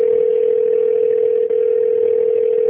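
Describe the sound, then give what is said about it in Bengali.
A steady, unbroken telephone line tone holds at one mid pitch, loud and alone, with a tiny dip midway, on a call to a police inspector that goes unanswered. “Phone বেজে গেল কিন্তু কেউ ফোনটা ধরল না”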